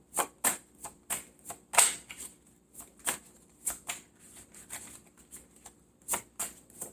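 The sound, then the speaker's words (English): Tarot cards are shuffled and drawn in many crisp, papery snaps and flicks. The rhythm is irregular, and the loudness varies from one flick to the next. “May I have three cards for the sign of Aries, please?”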